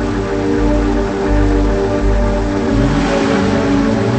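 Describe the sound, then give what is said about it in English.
A car engine hums loudly and steadily as a man drives away, and the engine pitch shifts partway through. “He drives away.”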